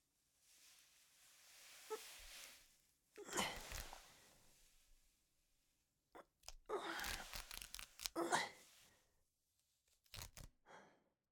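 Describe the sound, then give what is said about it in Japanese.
Stockings being torn produce quiet, rasping bursts of fabric ripping, several separate tears of varying length with silent pauses between them. “ストッキング流すのめんどくさいな。破るよ。”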